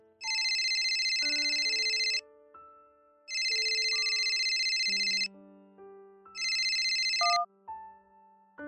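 Mobile phone ringtone for an incoming call: a melodic electronic ring with three repeated bursts of bright, high chiming tones over a lower stepping melody, with no voices.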